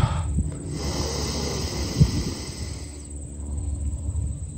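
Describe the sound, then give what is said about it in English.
A deep cleansing breath drawn in through the nose during a guided relaxation exercise, a steady breathy hiss lasting about three seconds before it fades away. “Let's take a nice cleansing breath here in through the nose.”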